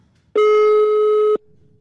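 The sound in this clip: A telephone call tone sounds while a line is redialled: one steady, buzzy tone lasting about a second, starting and stopping abruptly, with faint background noise before and after.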